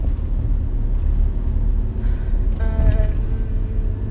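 Car driving on a road, giving a continuous low rumble with a faint whine rising briefly near the middle, no voices.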